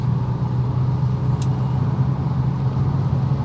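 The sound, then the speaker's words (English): Steady engine and road drone inside a car speeding up on a highway from 55 to 75 mph after leaving a construction zone; a low, even hum continues throughout with no talk. “So now I am starting to leave the construction area here, and I can actually speed up from 55 to 75. So if you hear some acceleration in the background, that's what I'm doing.”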